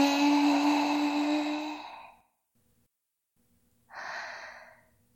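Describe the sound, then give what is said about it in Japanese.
Deep breathing during a guided breathing exercise. A long, voiced breath fades out, then comes silence and a shorter, airy breath. “息を吸って”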